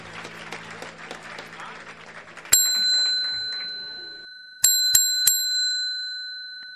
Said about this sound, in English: so I figured I'd start in the car with the ding-dong bell